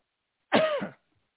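A single brief throat clearing caused by food from breakfast tickling the throat: one short, rough burst heard alone, with silence before and after.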